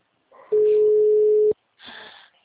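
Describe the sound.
A telephone call rings before reaching voicemail: a single steady, even ringback tone holds for about a second, loud and unwavering, with brief softer noise just before and after it.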